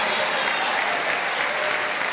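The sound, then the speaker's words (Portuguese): A church audience applauds in praise of Jesus, a dense, steady wash of many hands clapping together at an even, fairly loud level with no single claps standing out. “Aplaude a Jesus e dá glória.”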